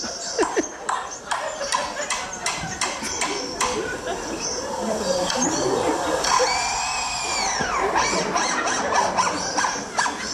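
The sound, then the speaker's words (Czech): A lyrebird imitates an automatic screwdriver with rapid mechanical clicks and whirring bursts. In the middle comes a sustained whining tone that rises and then falls, and a voice can be heard beneath the calls. “Lirochvost. Počkejte, ještě přijde automatická ta šroubovák.”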